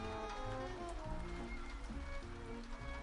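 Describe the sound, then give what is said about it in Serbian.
Rain falls in a steady, soft, continuous hiss that stays faint and even throughout, with no voices. “Pada kiš.”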